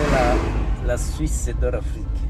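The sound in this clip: A car drives past terraced fields in the hilly Rwandan countryside, its steady low engine and road rumble running throughout while voices talk over it.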